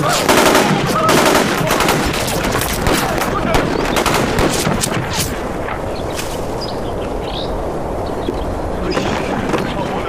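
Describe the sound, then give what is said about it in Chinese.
Heavy gunfire during an armed confrontation with police: a dense, continuous stream of rapid, sharp shots and bursts. It is loudest and thickest at the start and stays sustained throughout. “你们不要开枪，谁开枪我就打死谁。”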